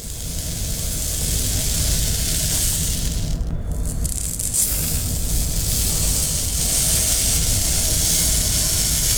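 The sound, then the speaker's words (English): Sand shaken in a container makes a continuous, loud, rattling hiss that holds steady throughout, with only a brief dip partway through. “It is not cat litter, actually. The reveal is sand.”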